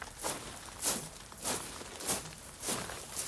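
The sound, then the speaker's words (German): Marching footsteps in a slow, even rhythm: about six soft steps spaced a little over half a second apart, faint and with no talk. “Versuchen wir es nochmal. Es wird marschiert. Es läuft. Ich hör's.”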